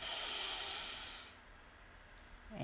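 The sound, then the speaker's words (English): A deep breath during a qigong breathing exercise, heard as a long airy hiss of exhaled air that fades after about a second into near quiet, with no talk. “Deep breath in and out.”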